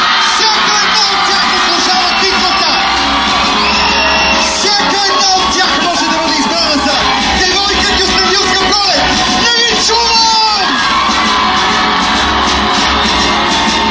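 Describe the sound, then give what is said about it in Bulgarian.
Crowd cheering, whooping and shouting hurrah for thirteen girls at a local beauty pageant. The sound is loud, dense and continuous, with many voices yelling together throughout. “аз искам отново да ви помоля да извикате колкото ви глас държи. Едно мощно ура за всичките невероятни 13 момичета!”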